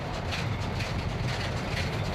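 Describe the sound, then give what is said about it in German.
A class 01 steam locomotive running along a rail line in the Moselle valley, a steady, loud, low rumbling roll with no clear beat. “Die Lok der Baureihe 01 hat einen guten Klang.”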